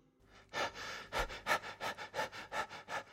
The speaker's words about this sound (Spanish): se encontró con un perro que jadeaba como si hubiera estado corriendo mucho